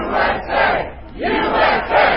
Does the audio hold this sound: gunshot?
no